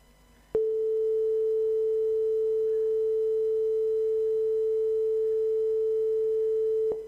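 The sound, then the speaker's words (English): A pure sine-wave tone at the note A, with no overtones: a single steady, unwavering pitch that starts abruptly, holds evenly for about six seconds, then cuts off. “See, that's called a pure sine wave, and all the other harmonics over it and under it have been stripped away.”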